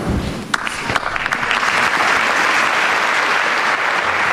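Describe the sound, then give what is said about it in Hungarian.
Applause at the end of Pope Francis's general audience starts with a few scattered claps, then swells into a loud, sustained storm of clapping from a large crowd. “ezzel a tapsviharral ér véget a mai napon is Ferenc pápa általános kihallgatása”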